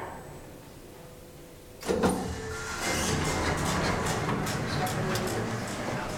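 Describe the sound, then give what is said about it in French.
Elevator doors opening at the second floor: a quiet hum, then a short knock and a steady whooshing slide that carries on to the end. “Deuxième étage. Ouverture des portes.”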